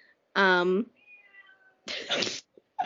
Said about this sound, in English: If you hear a cat meowing right now, it's my roommate's cat, Gracie.